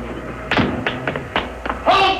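Several dull taps and thumps as a man dismounts a vehicle in a radio drama, spaced irregularly and fairly loud, with a brief busier burst at the very end.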